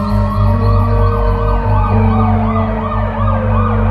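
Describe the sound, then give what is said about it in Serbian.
Police and ambulance sirens wail together at the scene of an injured girl, a loud, continuous cycle of repeating rising and falling tones over a steady low vehicle rumble. “Dolaze policija i hitna. Vidim ih.”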